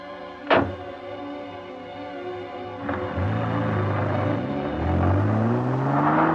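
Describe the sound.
A car being driven out of a garage and pulled up to a stop: one sharp thud early on, then a steady engine hum that grows louder, its tone sliding upward as the car accelerates.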